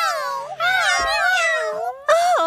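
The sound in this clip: Kittens meowing in three drawn-out, wavering high-pitched calls, with the middle call the longest, loud and following one another with only brief gaps.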